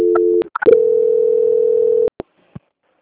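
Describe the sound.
Telephone tone during a call transfer: a short steady beep, brief clicks, then a loud unbroken tone lasting about a second and a half, followed by a few faint clicks.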